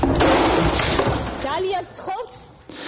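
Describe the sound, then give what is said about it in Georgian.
A drinking glass smashed in protest during a heated television studio debate: a loud burst of shattering glass at the start, followed by raised voices talking. “პროტესტის ნიშნად ჭიქა დაამსხვრია”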